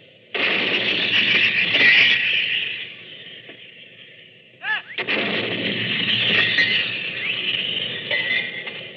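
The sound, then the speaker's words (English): A 75-millimeter field gun fired by a British gun crew in the First Battle of France: an abrupt blast opens a long, dense roar of noise, and a second sharp report breaks in partway through. “Now here's the sound of a 75-millimeter field gun fired by a British gun crew in the First Battle of France.”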